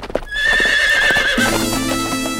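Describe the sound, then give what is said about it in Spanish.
A horse whinnies loudly in a long, wavering high call while its hooves clip-clop. The horse is ridden as a means of transport. Lower, steadier tones carry on after the whinny fades. “¡Mi caballo es mi medio de transporte!”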